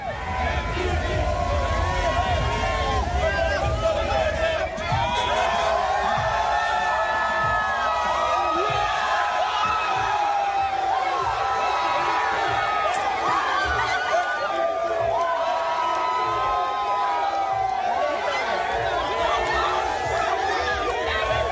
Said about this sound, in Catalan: Doncs una bogeria, eh? De gent, aficionats que van envoltar el jugador, el van fotografiar, van poder gravar el seu heroi